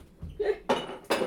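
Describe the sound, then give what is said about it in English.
A six-minute boiled egg is cracked with a few short, sharp taps and crackling knocks in quick succession, the later ones louder and crisper than the first faint tap. “Here's the sound of a 6-minute egg cracking.”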